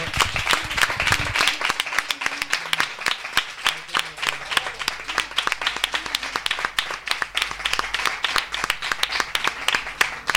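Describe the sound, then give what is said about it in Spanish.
Children applaud at a school event with a steady barrage of many quick claps that stays loud and dense from start to finish. “Mirad los mayores, qué pedazo de aplauso os van a dar.”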